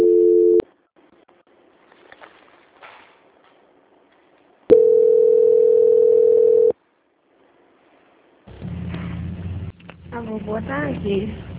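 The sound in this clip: Telephone tones sound during a call transfer: a brief steady beep at the start, then a continuous flat tone lasting about two seconds after a pause, followed by a voice speaking.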